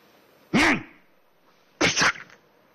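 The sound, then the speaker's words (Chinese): A storyteller vocally imitates a sneeze: two loud bursts separated by a pause, the first with a voiced rising-and-falling catch, the second a harsher, noisier explosive blast. “啊嚏一个喷嚏”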